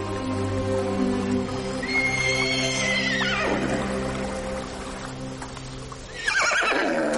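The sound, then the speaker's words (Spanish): A white horse whinnies near a stream: one long neigh that falls in pitch, then a second, shorter whinny near the end, with some hoof clopping over a steady low background. “Un caballo blanco sale de detrás de un árbol.”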